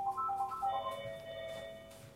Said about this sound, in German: Oh, Telefon. Wie immer für dich.